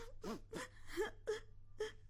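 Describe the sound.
A child cries in faint, broken whimpers, several short sobbing bursts in an uneven rhythm, quiet throughout.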